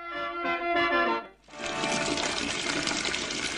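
Water runs from an opened tap at home, a loud steady rush that starts abruptly partway through, after a brief lull that follows a different tonal sound.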